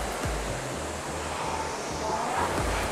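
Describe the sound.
Whooshing of a rowing machine flywheel: a steady, continuous airy rush with soft, low pulses running beneath it.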